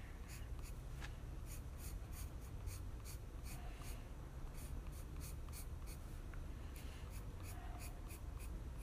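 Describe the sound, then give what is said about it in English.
Faint, rapid scratching of a 2B pencil sketching an anime drawing, many short strokes in an irregular rhythm, each a soft, dry rasp. “don't mind me just drawing an anime”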